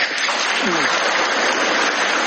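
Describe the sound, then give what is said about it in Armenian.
Parliamentary deputies give unanimous applause after an announcement by the president of Kazakhstan, a dense, steady wash of clapping that holds at an even level from start to finish. “Ղազախստանի նախագահի այս մի հայտարարությանը պատգամավորներն արձագանքեցին միահամուռ ծափահարություններով։”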